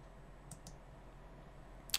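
Three quiet computer mouse clicks, two soft ones close together and a sharper one later, while accepting a license agreement in a software installer.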